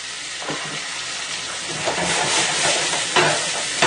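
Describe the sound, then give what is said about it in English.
Pink spot prawns sautéing in clarified butter with a splash of white wine: a steady, loud hiss of sizzling, broken by a few stirring scrapes and soft clatters in the pan. “we have some local pink spot prawns. I'm going to saute in this clarified butter. And a touch of white wine.”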